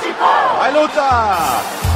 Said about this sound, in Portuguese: Explosão da torcida ao vivo, hexa campeão de Pernambuco.